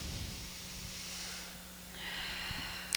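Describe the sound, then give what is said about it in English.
A deep, slow breath taken during a guided energy session: two soft, airy breath sounds, the first drawn out, the second following after a short pause, faint and without talk. “So take a nice deep breath, and we'll see where we go.”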